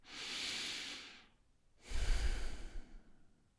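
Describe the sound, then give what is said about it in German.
Breathing in and out through the nose: a soft airy inhale followed after a short pause by a heavier exhale with a low, rumbling rush of air. Quiet and alone, with no talking. “Okay, wie ist es, wenn ich durch die Nase durch die Nase ein- und ausatme?”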